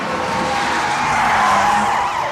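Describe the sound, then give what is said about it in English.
A powerful sports car accelerates hard to 80 miles per hour as a reckless driver flees police, giving a loud, continuous roar with shrill, shifting tones riding over it. “The powerful sports car accelerates to 80 miles per hour.”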